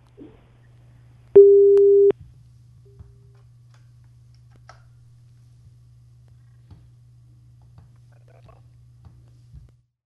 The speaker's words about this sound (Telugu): Line cut అయినట్టుంది.